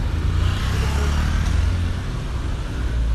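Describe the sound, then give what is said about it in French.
Street traffic in Brazil with vehicles passing: a steady, dense roar of engines and tyre noise, heavy low rumble under a broad hiss, continuous without clear breaks. “Les bruits des véhicules se mêlent au bruit des travaux.”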